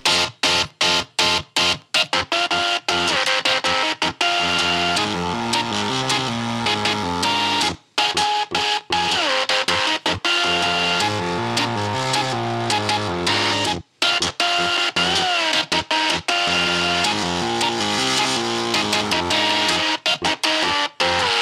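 Whirring, buzzing mechanical tones from twelve repurposed devices and a portable sewing machine playing a pop song, a dense continuous stream of stepping pitched notes with rhythmic clicks and a couple of brief gaps.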